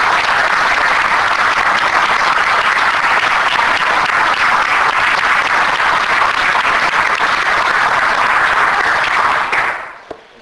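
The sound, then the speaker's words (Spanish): Audience applause at a political party conference for a new local committee president: dense, steady clapping that holds loud and even for about nine seconds before fading out quickly. “es el momento de brindar un aplauso a Martiñano”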